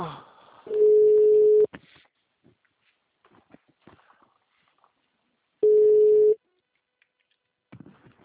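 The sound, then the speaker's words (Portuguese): Two long, steady, mid-pitched telephone busy-signal tones, each lasting about a second, separated by several seconds of near quiet, with faint talk at the start and end. “Não foi possível completar a sua ligação. Por favor, verifique o número e ligue novamente. O número está ocupado.”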